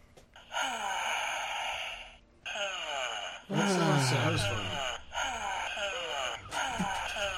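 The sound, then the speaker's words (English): A sigh sound effect fired from a soundboard button: a few breathy, moan-like vocal bursts separated by short gaps, the loudest near the middle sliding down in pitch, all with a clipped, canned quality. “I would like to say this is called the disappointed sigh machine”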